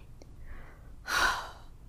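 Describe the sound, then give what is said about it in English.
A single deep breath from a frightened person, a short, breathy whoosh that rises and fades, preceded by a fainter, softer breath. “Deep breath”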